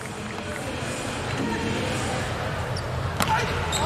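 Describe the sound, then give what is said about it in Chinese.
Volleyball serve by a Turkish team player during a match: a single sharp strike on the ball stands out near the end over a continuous roar of crowd noise. “徐金星帕扎尔的第二次发球，”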